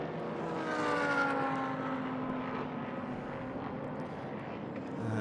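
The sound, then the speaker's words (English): Engine drone of a Porsche 963 prototype race car heading out through turns one and two during a sports car championship practice session: a fairly faint, continuous droning note whose pitch slowly sinks, with no talking. “Let's keep an eye on one of the 963s for a little bit. Just going out onto turn one and two.”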